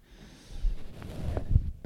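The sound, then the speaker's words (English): A person breathes in through the nose and out through the mouth during a relaxation exercise. The breath is slow and faint, grows somewhat stronger, and ends with a sharper, louder burst of air. “Breathe in through the nose and out through the mouth.”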